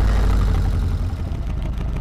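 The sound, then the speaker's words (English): A steady, loud rumbling whir comes from the engine of a tilting two-seater car that leans into bends like a motorbike, holding an even tone throughout. “Claire goes for a ride with the inventor of the Carver, a two-seater car that thinks it's a motorbike.”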